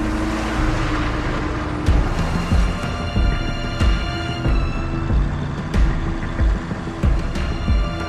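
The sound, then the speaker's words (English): A transport truck moving slowly along a snow-covered road, its engine giving a low, steady droning hum broken by repeated sharp knocks and clanks at uneven intervals. “The transport truck moves slowly, hanging back.”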